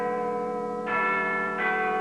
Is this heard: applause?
no